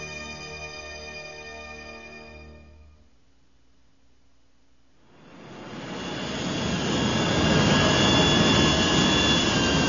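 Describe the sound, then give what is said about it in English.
A souped-up freighter ship flies off through rain-black clouds. A tonal engine hum fades to near quiet, then a loud, broad, jet-like roar swells up and holds to the end. “The souped-up freighter tore a hole in the rain-black clouds and was gone.”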